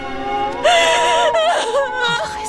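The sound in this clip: A girl cries and sobs: a high, wavering whimper in short, shaky bursts that rise and break off, fairly loud and alone.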